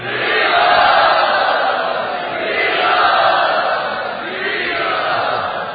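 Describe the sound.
An audience in Bombay loudly welcomes a guest with a sustained roar of cheering and shouting from many voices, swelling and easing in broad waves.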